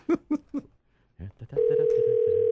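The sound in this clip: A telephone is being dialed for a call, with a steady dial tone switching on after brief talk. The tone is loud and continuous through to the end, with a voice speaking over its start.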